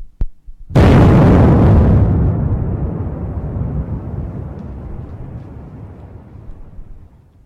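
A bomb explosion bursts in with a sudden, loud, full-bodied boom after a faint sharp click, then a heavy rumbling decay that slowly fades over several seconds.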